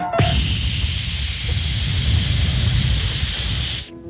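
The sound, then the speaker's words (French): A blowtorch searing meat, a loud steady roaring hiss that starts abruptly with a click and holds level for several seconds before cutting off. “Tu m'avais pas dit qu'il fallait un chalumeau pour brûler la viande.”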